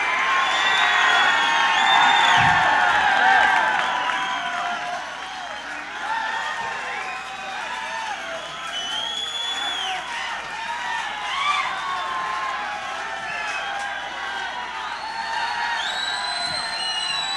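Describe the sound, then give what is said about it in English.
A concert audience cheers and whoops for an encore, a dense, sustained roar of shouts and high whoops that peaks at the start and then stays loud and continuous. “This audience is not going to leave unless you guys do an encore.”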